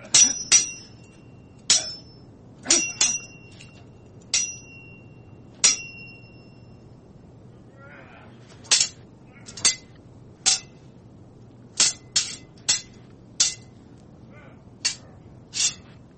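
Swords clash in many sharp metallic clangs, each a bright ringing hit. They come irregularly, some in quick pairs, with quiet gaps between.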